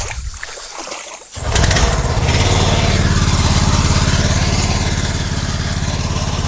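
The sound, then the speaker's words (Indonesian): Speedboat engine on a long river journey toward a border village in Papua: after a brief quiet stretch the motor roars in and holds a loud, steady, pulsing drone to the end. “kami harus melanjutkan perjalanan menggunakan speedboat sekitar 4 jam untuk sampai di kampung perbatasan Merauke, Papua Nugini.”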